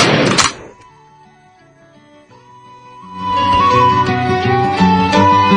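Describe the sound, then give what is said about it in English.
A 9mm handgun fires as the trigger is squeezed: one loud, sharp bang at the very start, followed by a near-quiet stretch with soft sustained tones, then louder music swelling in. “Here's a 9mm. Now I'm going to stare right down the barrel, and let's just go ahead and squeeze the trigger.”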